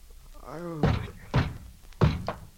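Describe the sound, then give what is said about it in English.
Police pounding on a door: a few heavy, booming thuds at uneven intervals, the last two close together, preceded by a brief voice. “Oh, don't tear the door down. I'm coming.”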